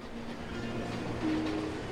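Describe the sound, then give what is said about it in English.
A train pulls up to a platform with a steady, low, rumbling drone and a brief tonal whine near the end, all fairly faint. “Outside, a train pulls up to a platform.”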